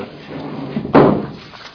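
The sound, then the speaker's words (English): A chair being pulled up makes one short, heavy thump-like scrape that stands out sharply over a quiet, steady background. “I pull up a chair.”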